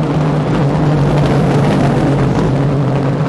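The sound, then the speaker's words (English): Aston Martin race car engine droning in the pit lane while held on the pit-speed limiter: a loud, constant low hum with a steady tone that neither rises nor fades. “Here comes an Aston Martin, listen.”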